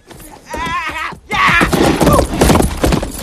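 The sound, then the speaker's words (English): A horse whinnies and is ridden away from outside a bar: a quavering neigh, then loud, rapid hoofbeats and a rushing clatter, with no talk. “Another man comes flying out of the bar, looks around, and jumps onto Scar's horse, then rides away.”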